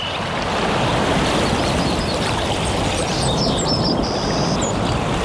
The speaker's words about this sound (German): Hören Sie mal, so klingt der Sommer in der Toskana-Therme Bad Sulza.